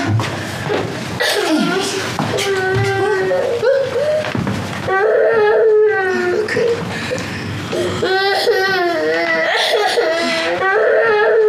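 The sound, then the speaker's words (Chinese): A young child crying and wailing in repeated sobbing bursts, loud and high-pitched, while adult voices talk over and around the crying. “那个祖宗，你别哭了”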